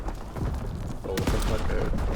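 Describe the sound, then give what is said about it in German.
A sniper rifle quickscope shot in a video game: one sharp, booming crack bursts out midway, with a voice talking before and after it. “Sniper-Typ hier. Oh, da wurde gequickscoped.”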